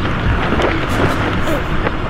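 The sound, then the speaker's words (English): Strong wind during a parachute jump over a field roars loudly and continuously with gusty swells, and voices are faintly mixed in. “There's too much wind.”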